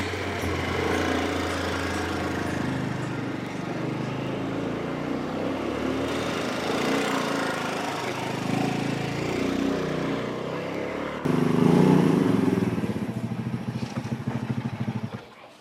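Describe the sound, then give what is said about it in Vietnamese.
Motorbike taxi engine droning steadily for about eleven seconds, then surging noticeably louder before the sound cuts away at the end. “Thôi xe ôm chở về đi.”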